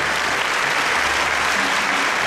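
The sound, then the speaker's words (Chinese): Loud, dense applause from three observers after a Chinese xiaokuaiban clapper-rhyme performance, a steady, unbroken wash of many hands clapping together with no voices over it. “这三位观察员可以鼓掌了，谢谢。”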